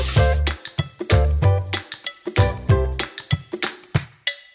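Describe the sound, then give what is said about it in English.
Kitchen clatter while eggs and cheese are prepped: many sharp clinks and taps with heavier knocks among them, loud and irregularly spaced, with no talking. “So we're going to pause while we prep some eggs and cheese, and then we're going to get to the assembly, exciting assembly.”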